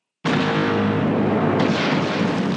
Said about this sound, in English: Well, our next topic directly related to Boba. Everyone's new favorite, the seismic charge